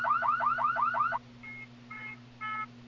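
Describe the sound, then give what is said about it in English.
A car alarm going off, opening with a rapid run of warbling chirps and then switching to a few steadier pulsed tones, all over a constant low hum. “Do you hear that car alarm going off too?”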